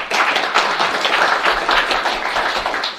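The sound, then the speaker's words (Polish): Dense, steady applause from an audience welcoming a speaker at a lecture in a town hall. The clapping is loud and continuous, with no break across the whole clip. “Brawa,”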